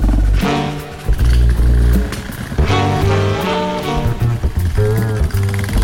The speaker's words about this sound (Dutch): Terug op de motor.